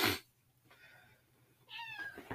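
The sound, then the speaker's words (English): A young mixed-breed house cat meows while begging for attention, a soft faint call followed by a clearer, higher meow with a slightly falling tone, alone without talk. “If you hear like a slight meow, that's our cat. Our youngest mix. Cat. Begging for attention.”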